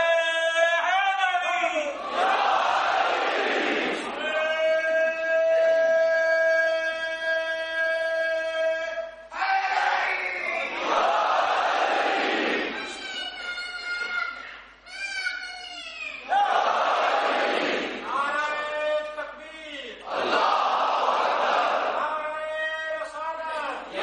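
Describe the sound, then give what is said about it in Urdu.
A crowd at an Ashura gathering chants slogans and salawat together. Several loud, tonal bursts of massed voices alternate with held, sung lines. “اور پیغام عاشورہ جس طرح سے محکم و مضبوط ہے, اسی طرح سے نعرہ و صلوات بھی محکم و مضبوط ہونی چاہیے. ایسا نعرہ ہونا چاہیے کہ جو الرٹ رہیں, الرٹ زیادہ ہو جائیں.”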